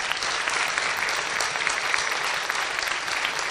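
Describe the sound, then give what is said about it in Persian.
Steady applause from an audience honouring course participants who stayed active over two weeks: dense, even clapping that holds at a constant loudness throughout, with no voices. “آقای کاشفی عزیز و تمام عزیزانی که توی دو هفته گذشته با من همراه بودن میخوام همشون رو تشویق کنید فوق العاده فعال بودن.”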